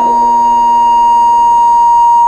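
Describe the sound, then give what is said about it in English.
A hotel fire alarm system under test sounds a loud, steady electronic tone, held at one constant pitch with no break. “We will be conducting a test of the fire alarm system. We ask that all guests and hotel staff disregard the alarms”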